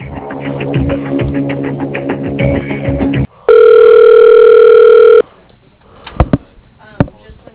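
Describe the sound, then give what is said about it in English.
A telephone line tone sounds as a call is transferred to voicemail: a steady electronic tone lasting about two seconds, preceded by talk on the line and followed by a few sharp clicks and a voice. “I'll transfer you to his voicemail right now, okay?”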